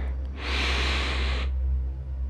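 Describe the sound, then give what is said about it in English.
A single deep breath in during a guided relaxation exercise, heard as one steady, airy hiss lasting about a second over a low background hum. “and slowly exhale, releasing all the tension in your body as you do so. Slowly breathe in again.”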